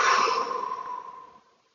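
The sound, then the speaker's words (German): A slow exhale during a guided breathing exercise, one soft breathy sigh that fades steadily to silence over about a second and a half. “Wir beginnen wie immer mit dem Atem tief ein und langsam wieder ausatmen.”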